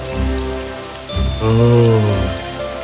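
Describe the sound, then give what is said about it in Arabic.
Rain falls in a steady, even hiss that runs without pause through the whole stretch, joined by a sustained tonal musical sound in the middle. “أخيراً تسقط الأمطار، تسقط الأمطار. أجل، مرحباً بالأمطار”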